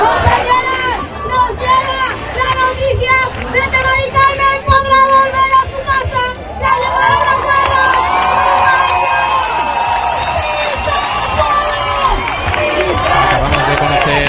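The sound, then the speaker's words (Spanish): A protest crowd in Seville chants and cheers with joy at news of a tenant's agreement to return home. Many voices rise in rhythmic chanting, then give way to longer, sustained shouts and whoops. “todo mientras el público canta "No nos vamos, nos quedamos". Público aquí en Sevilla que también ha reaccionado con júbilo a la noticia del acuerdo de Mari Carmen con el fondo Urba Gestión para poder volver a su casa. Lo escuchamos.”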